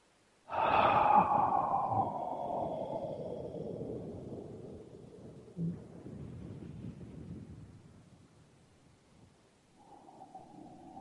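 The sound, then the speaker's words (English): A person demonstrates a deep breath during a sound healing treatment: one long, loud, airy exhale that starts abruptly and slowly fades over about eight seconds, with no talk. “the most important one of all is the breath. If you go up to somebody and you're doing a treatment on them in sound healing, and you simply go,”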